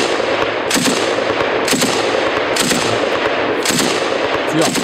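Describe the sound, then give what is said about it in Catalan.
A heavy machine gun fires in loud, repeated bursts about once a second over a dense, roaring noise that runs without a break. “És tan hàbil amb les armes que decideixen ensenyar-li a disparar una metralladora pesant.”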